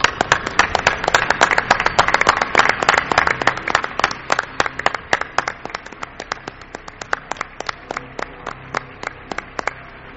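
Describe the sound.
Applause from an audience: many sharp, crisp claps in a fast, steady patter that ease slightly softer toward the end, with no talking.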